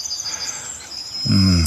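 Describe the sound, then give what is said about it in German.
Thin, high sustained bird song rings out in a grove hollow with a hornbeam at its centre, in warm golden sunlight. The faint trilling notes run throughout, and a low voice-like sound rises briefly near the end. “möchte ich den Podcast mit einem Vogel, den ich vorhin schon erwähnt habe,”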